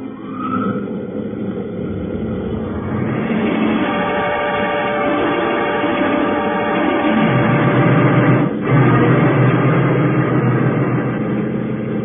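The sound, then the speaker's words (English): Whining, wavering engine tone of a science-fiction spaceship's solar drive starting up, swelling louder after a few seconds into a dense, rising drone with a brief dip near the end, no voices. “I'll cut in the solar drive and we'll move into the closest one.”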